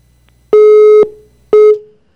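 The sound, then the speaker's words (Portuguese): Telephone busy tone after a dropped call: two loud, steady, mid-pitched beeps, each about half a second long and separated by a short silence, with no talking. “Caiu a ligação, vamos ter que refazer este contato.”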